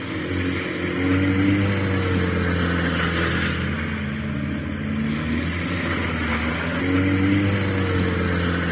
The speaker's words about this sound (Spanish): Son acelerones y derrapes que se están produciendo en el aparcamiento de Fuentes de Invierno, también en el de la estación de Valgrande de Pajares.